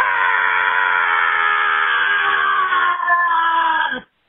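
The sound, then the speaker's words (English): A hearty, full-throated human scream from the gullet: one loud, sustained cry that holds a nearly steady pitch for about four seconds, then stops abruptly. “That was a good scream. Mm. You know what that was a hearty scream from the gullet.”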